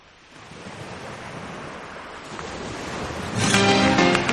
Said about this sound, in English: Like beaches by the sound of it.